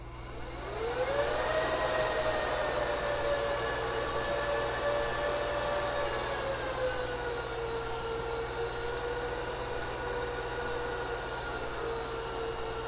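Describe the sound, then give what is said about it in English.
Server cooling fans spin up loudly while booting, a strong roaring whoosh with a high whine that climbs about a second in, holds steady, then settles slightly lower partway through. “Now let's fire back up the server. This can get loud for a second because they fire up loud.”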